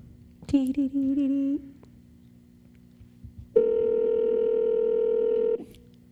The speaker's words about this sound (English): So do you want to dial his number?